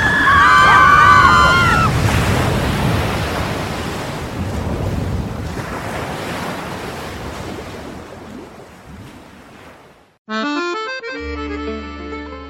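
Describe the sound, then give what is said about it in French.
Sea waves surge and wash around a boat on rough, choppy water: a loud, continuous roar of surf and wind that slowly eases, then breaks off abruptly into a short musical jingle. “Le bateau coule. C'est une catastrophe. Calmez-vous. Ce n'est qu'une petite vague.”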